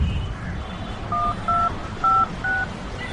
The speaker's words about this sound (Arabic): اسمحي لي هعمل تليفون بس لاخويا مراي